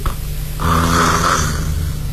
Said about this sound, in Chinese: 打哈欠